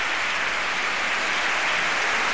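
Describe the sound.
Dense, steady applause from a concert audience, many of them standing, rewarding the soloists and conductor after an orchestral performance in an auditorium, a continuous wash of clapping with no voices over it.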